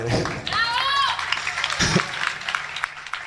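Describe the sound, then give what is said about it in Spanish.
Applause for a performer at a live show: steady clapping mixed with a few raised voices, rising shortly after a brief spoken phrase and continuing to the end. “Queríamos pedir un aplauso para Juanpa Camarda”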